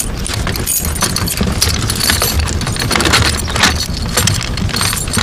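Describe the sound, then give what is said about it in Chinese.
Keys jangling and rattling while a lock is opened, a steady metallic clatter of small scrapes and clinks that runs through the whole stretch without pause. “把锁打开。”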